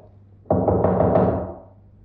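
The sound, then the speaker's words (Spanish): Knocking on a bedroom door: a short burst of a few quick raps, fairly loud and clear, with no voices. “Luego llegó junto a la puerta del dormitorio de su hija y llamó.”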